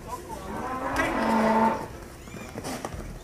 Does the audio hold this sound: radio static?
no